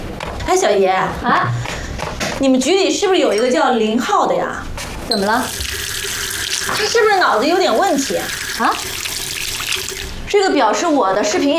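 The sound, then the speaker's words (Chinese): Tap water runs as hands are washed before a meal: a steady splashing flow that continues under ongoing conversation, with people talking throughout. “行，洗手吃饭。”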